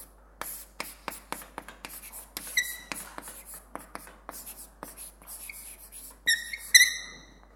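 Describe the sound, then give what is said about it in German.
Writing on a board during an introductory quantum mechanics lecture: a steady run of many short, dry tapping strokes, with a few thin, high squeaks near the end. “Schreibe ich groß genug auch für die in der hinteren Reihe?”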